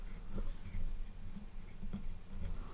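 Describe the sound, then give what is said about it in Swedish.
Pen writing on paper, with faint, soft scratching strokes in short bursts over a quiet, low background murmur. “Ja, jag började redan skriva.”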